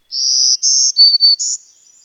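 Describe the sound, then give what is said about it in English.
Black-throated green warbler song: a short phrase of five high, buzzy notes, the middle pair slightly lower and the last rising again, delivered clearly and alone against silence. “Start with this fun little ditty from the common and widespread black-throated green warbler, which is described as trees, trees, murmuring trees.”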